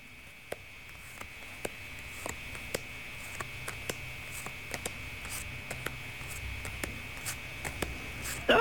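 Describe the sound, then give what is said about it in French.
Cards are laid down one after another during a spirit-animal card reading, making many small, sharp taps roughly half a second apart over a faint, steady whine. “Je vais déposer les cartes les unes après les autres et vous me donnerez un stop quand vous le désirez”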